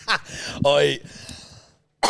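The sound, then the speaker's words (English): A person coughs in a few rough, throaty bursts that stand out loudly against a quiet background. “You've got to stop coughing like that.”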